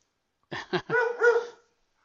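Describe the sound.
A dog barks three times in quick succession, two short clipped barks and then a longer, drawn-out one, sharp and alone.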